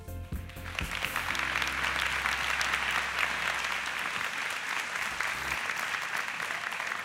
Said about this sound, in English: would you join me in putting your hands together right now and welcoming one of the pastors from our teaching team?